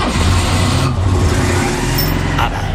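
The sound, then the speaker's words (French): A Citroën car engine gives a loud, steady rumble, a continuous low drone with broad noise over it. There is no distinct start-up burst or revving. “Vous avez trouvé, c'est peut-être l'une des Citroën les plus connues, hein, sans doute. Allez, vous nous appelez, on cherche une voiture.”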